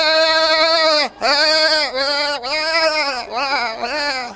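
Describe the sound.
Sheep bleating in a run of loud, wavering, nasal calls, one after another with brief gaps, the cries rising and falling slightly in pitch with no other sound behind them.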